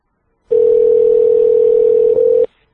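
Telephone line tone as a phone is dialed to call someone back: a single steady mid-pitched tone that holds loud and alone for about two seconds, with a faint click just before it cuts off.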